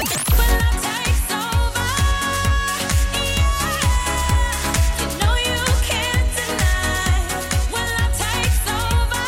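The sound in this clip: A 2010 pop song with a steady thumping beat under layered synth chords and sustained melodic lines, loud and dense throughout without a break.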